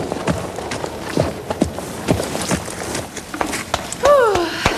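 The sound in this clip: Hoofbeats of a horse ridden out of a dressage arena after the final salute to the judges, a steady series of firm thuds.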